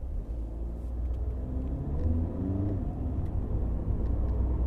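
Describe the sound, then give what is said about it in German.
Car driving on a road between Seifen and Annaberg-Buchholz, partly along the Silberstraße, a steady low engine rumble with faint tonal engine notes that shift slightly partway through. “Von Seifen fahre ich nun 50 Kilometer nach Annaberg-Buchholz, teilweise auf der touristischen Silberstraße”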